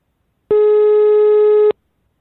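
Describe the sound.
A telephone rings back on an outgoing call with a single steady buzzing tone of about a second. It starts and stops abruptly, with silence before and after.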